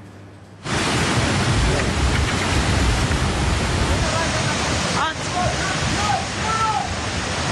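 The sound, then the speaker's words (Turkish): Flood water from overflowing streams after heavy rain in Hatay rushes in a loud, steady roar. It starts abruptly and runs without a break, with faint voices briefly audible beneath it. “Dereler taştı, evler suya gömüldü.”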